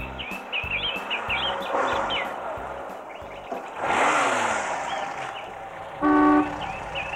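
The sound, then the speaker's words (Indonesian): A family car drives to a village far from the city, with a low rhythmic rumble early on, a swelling whoosh midway and a single horn toot near the end, while birds chirp throughout. “Hari Minggu, Nesa diajak ayah dan ibu pergi ke rumah pamannya di desa yang letaknya jauh dari kota dengan naik mobil miliknya.”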